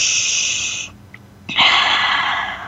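A deep breath drawn in during a guided breathing pause: a long airy, hissing inhale, a brief near-silent gap, then another long breathy rush that stays strong to the end, with no talk.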